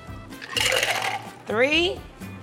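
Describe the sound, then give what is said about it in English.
Cocktail liquid poured from a shaker tin into a glass while rolling a drink, a short splashing pour of under a second, followed by a brief spoken voice. “You take your shaker tin, you take your glass. You have these two things. Take this, and you pour it in.”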